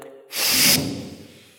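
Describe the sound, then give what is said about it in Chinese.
One forceful nasal exhale blown through a single nostril while the other is held closed, during a breathing exercise at a meditation retreat: a sharp, breathy hiss of about half a second that then fades out. “首先我们先先先从右鼻孔啊，按着左鼻孔啊，然后吸气到这边就按着，等于逼它，然后它就从这边”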